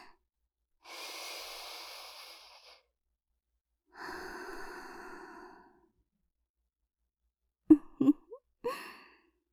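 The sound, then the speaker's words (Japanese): Slow, deep, relaxing breathing: two long, soft, airy breaths lasting a couple of seconds each, then a few short, sharp breath sounds close together. The breathing is faint, with silence between the breaths and no talk. “リラックスして、深呼吸しなきゃ。”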